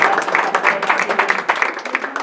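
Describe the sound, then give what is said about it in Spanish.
A team is applauded after a hands-on machine-building activity: a brief burst of quick, loud clapping from a small group, with a voice briefly heard near the end. “Un aplauso al equipo. Muchas gracias.”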